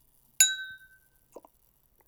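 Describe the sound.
Red wine glasses clink once in a toast, a single bright, sharp chime that rings on briefly and fades into quiet.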